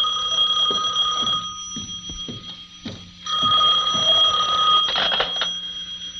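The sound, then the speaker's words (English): An office telephone rings with a steady, bright electronic tone that breaks off briefly near the middle and then resumes, with soft knocks and thuds underneath. “my phone was ringing”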